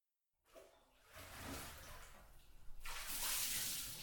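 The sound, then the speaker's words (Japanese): Water is poured in a bath to rinse someone's back, starting with a sudden gush, continuing as an uneven splash and swelling into a louder, bright pour near the end, with no talk. “じゃあたまには背中でも流してやるか。そこ座りなよ。”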